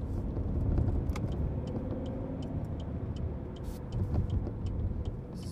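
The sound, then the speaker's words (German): A car engine labours uphill in third gear on an 18 percent grade, giving a steady low rumble with scattered light ticks and clicks and no voices. “Dritter Gang berghoch, 18 Prozent.”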